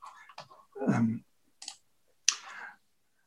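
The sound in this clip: A few irregular clicks and taps of typing on a keyboard as a Bible passage reference is entered, with one duller thump among them, then quiet.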